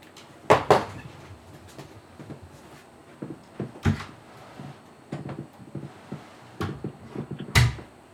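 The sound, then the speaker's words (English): An office door is being closed: a scattered series of wooden knocks, clunks and rattles. The sharpest thumps fall near the start and end, with quieter handling noises between and no talk. “Okay, sorry, bear with me a second. Let me just close my office door.”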